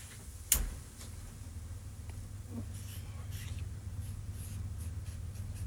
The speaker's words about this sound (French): Là, il est en train d'écrire sur...